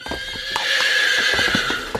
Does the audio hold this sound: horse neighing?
yes